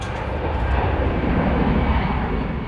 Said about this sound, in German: Um 9.45 Uhr hebt die Maschine, übrigens eine ehemalige Boeing der Lufthansa, voll bis auf den letzten Platz Richtung England ab.